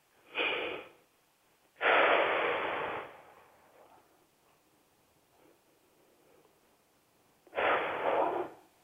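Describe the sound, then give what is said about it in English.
Three deep breaths taken during a calming exercise, each a loud, airy rush. The first is short, the second longer and slowly fading, and a long quiet gap comes before the third. “But just take a few deep breaths to come back in your body.”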